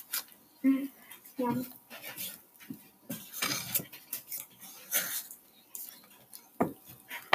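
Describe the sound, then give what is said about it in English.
Chocolate chip cookie dough being mixed in a bowl, with irregular scrapes, knocks and clinks of a utensil against the bowl, the sounds coming in uneven bursts while people talk. “So just keep mixing it until it gets to the right distance. And it should look like cookie dough.”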